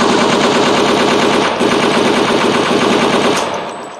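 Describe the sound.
Loud, continuous automatic gunfire rattles rapidly for several seconds after a reload command, then tapers off slightly at the end.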